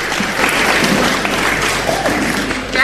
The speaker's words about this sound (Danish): så lad os lige give dem en varm klap.